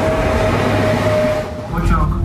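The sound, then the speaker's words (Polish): A commuter train in Poland runs toward a station with a loud, steady rumble. A sustained high whine rides on top and drops out briefly near the end. “Dojeżdżamy do stacji, na której będziemy mieli przesiadkę.”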